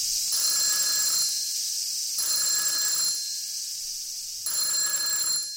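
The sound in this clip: A telephone rings in three separate bursts, each a bright, buzzing electronic trill with short silent gaps between them and no voices.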